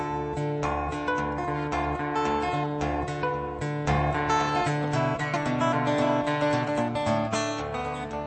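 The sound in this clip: Guitar playing, with dense picked and strummed chords ringing continuously at a steady, fairly full level, and no voices over the music.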